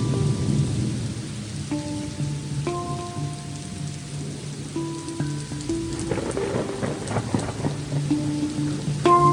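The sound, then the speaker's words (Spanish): A rain-soaked thunderstorm: steady, hissing rainfall with a low, continuous rumble of thunder underneath, joined by soft sustained musical tones. “Me encanta el ruido del trueno.”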